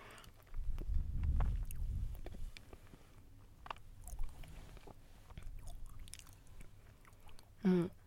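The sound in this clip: Chewing on a firm, fairly hard banana, with soft, irregular mouth noises and a few muffled low bursts early on and no talk.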